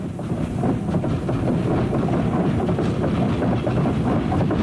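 A train passes at a railway station with a continuous, loud rumbling clatter of wheels and cars that stays steady throughout, with no voices.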